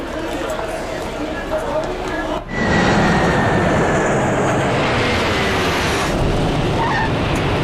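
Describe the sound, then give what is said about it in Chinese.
Loud, steady roar of an airplane arriving at an airport on a flight from Amsterdam, a broad engine rush that dips briefly, then swells and holds with a faint high whine, while voices talk underneath. “由阿姆斯特丹飞往江陵的 CE210次航班现在飞抵本站。”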